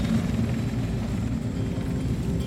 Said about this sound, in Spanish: ¿Al helicóptero? Ok. Ah, en el de allá, ok. Oh no, en, este helicóptero, ok.